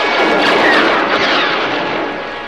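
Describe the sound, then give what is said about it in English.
Laser blaster fire exchanged with troops as others board a ship: a loud, dense volley of blasts that merges into a continuous crackling roar and eases slightly toward the end. “Han Solo and Chewie exchange blasting laser fire with the troops as the others board the Falcon.”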